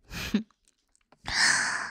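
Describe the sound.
Breath released after being held, at the end of a counted breath-holding exercise: a brief sound, a near-silent pause, then a loud, airy rush of breathing that carries on steadily to the end.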